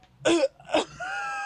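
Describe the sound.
Throat clearing: two short, rough, rasping bursts, followed by a brief sustained voiced tone.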